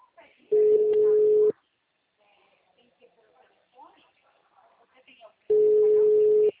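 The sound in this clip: Ringback tones of an unanswered WhatsApp call: two long, steady, mid-pitched rings of about a second each, separated by a long pause filled with faint background sounds.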